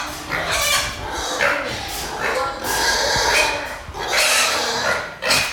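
Pigs on a pig farm raise a loud, overlapping chorus of squeals and grunts that swells and fades in repeated waves, a constant din throughout.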